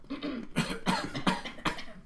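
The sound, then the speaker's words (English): A rapid run of several short coughs from inside a closet, quiet and dry, each burst brief and breathy. “you can hear a cough”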